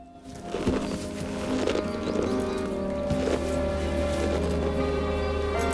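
Hooves clop and shift as a horse is saddled, its stirrups lowered and straps tightened before a rider climbs on; a few irregular hoof knocks ring out over a steady background.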